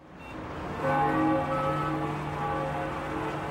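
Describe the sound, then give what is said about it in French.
Church bells ring out over a city as a warning for people to leave, heard from a rooftop in New York City. After a quieter start, sustained overlapping tones swell, then hang on steadily with no voices. “Derrière moi, vous entendez les cloches qui enjoignent à la population de quitter la ville.”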